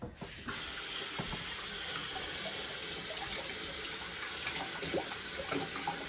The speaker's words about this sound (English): All right, let me wash my hands.